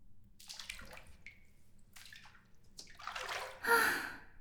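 Water sloshes and swishes as a person climbs into a filled bathtub. A few soft washes of water build to one louder splash near the end, with no talking.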